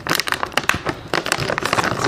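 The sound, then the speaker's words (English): Loud crinkling and crackling of a bag of corn chips that someone struggles to open, with many sharp plastic rustles in bursts and a brief lull near the middle. “This particular bag of corn chips. These chips are so hard to open. We might just have to cut it.”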